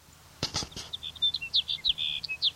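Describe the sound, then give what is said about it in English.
High, thin call notes of a sage sparrow, many short chirps in a quick, fairly even series. A few brief knocks come just before the calls begin. “Here's sage sparrow number two.”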